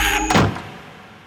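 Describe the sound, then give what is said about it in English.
A door slammed shut hard lands as a single heavy thud with a sharp attack, quickly decaying into quiet. “I slam the door hard”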